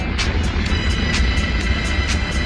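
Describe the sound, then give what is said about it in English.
The Apollo 14 rocket launch at liftoff gives a steady, dense roaring rumble, with regular crackling pulses of about four per second riding on top. “4, 3, 2, 1, 0. Launch commit. Liftoff. We have liftoff. Apollo 14. 3 minutes past the hour.”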